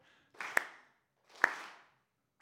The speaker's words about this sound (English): Keep clapping. That's good.